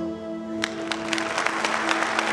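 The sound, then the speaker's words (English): Applause at an awards presentation: many hands clapping in a dense, steady patter that fills out slightly after the first half-second and holds at an even level, with no voices. “There is applause. The presentation of several awards.”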